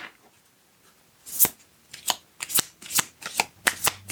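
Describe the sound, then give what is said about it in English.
Playing cards being shuffled by hand. After a quiet first second, many sharp, bright riffling bursts follow in quick succession, with no talking. “Let's pull a couple of cards.”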